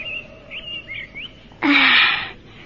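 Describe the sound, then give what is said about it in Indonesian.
Bright chirping birdsong in a dense forest at midday, a few quick whistled calls in a row, then a louder, noisy rushing burst that drowns them out briefly before fading. “Burung-burung ramai berkicau.”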